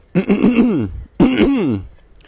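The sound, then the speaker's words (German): A person clears their throat with two loud, voiced bursts separated by a short pause. Each burst has a wavering, exaggerated tone. “Ich räuspere mich.”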